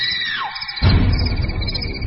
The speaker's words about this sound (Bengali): চিৎকারটা হঠাৎ জেগে উঠেই যেন আচমকা আবার মিলিয়ে গেল রাত্রির নিস্তব্ধতায়।